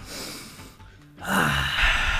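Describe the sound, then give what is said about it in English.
A deep breath is taken alone with no speech. Two soft, airy rushes of breath are separated by a short pause, and the second is louder and fuller. “I just need to take a deep breath here.”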